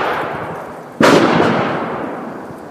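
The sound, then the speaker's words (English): A rifle shot at a rifle range: one loud, sharp crack with a long, slowly fading tail, after a fading rumble of earlier noise. “Checking in at the Carter's Country local rifle range.”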